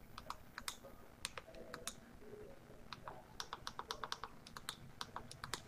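Faint typing on a computer keyboard, with many irregular, crisp key clicks that come in quick bursts and brief pauses.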